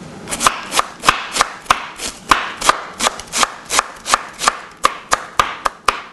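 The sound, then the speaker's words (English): Knife chopping purple cabbage for a slaw, a steady run of many sharp, evenly spaced chops that keep a firm, regular rhythm throughout. “With a little purple cabbage. Get a knife. Not that knife. This knife.”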